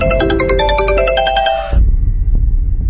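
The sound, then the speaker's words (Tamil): A phone rings with a bright electronic melody of quick, pulsing tones that stops partway through. Low rumbling noise with a few soft knocks follows. “Inspector கையில எடுக்கும் போது அடிச்சது phone call.”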